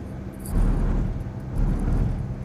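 A Volkswagen Polo Vivo car drives past on a multi-lane road, heard as a low, steady road and engine rumble that swells twice.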